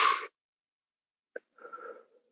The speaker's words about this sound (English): One more deep breath.